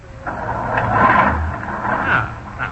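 A bus engine is started with the starter button during a bus driving test: a rough, noisy mechanical rumble that swells and wavers for a few seconds.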